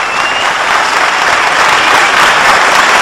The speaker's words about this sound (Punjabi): देखिए तालियां कैसे बजती